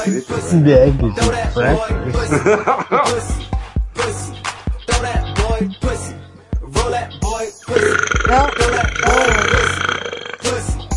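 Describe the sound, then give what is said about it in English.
Burping from someone who drank beer, several loud belches mixed in with lively chatter and other voices, with bursts coming irregularly throughout. “What? You can burp for that one? You can burp for that fucking”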